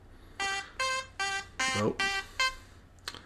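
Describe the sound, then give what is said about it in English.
A timer going off with six evenly spaced, buzzy electronic beeps, each lasting about a third of a second, followed by a brief, fainter blip at the end. “That was the timer to indicate that I should be done talking”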